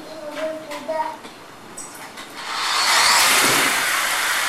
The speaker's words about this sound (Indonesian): Wah, ngebut ya. Ngebut banget itu.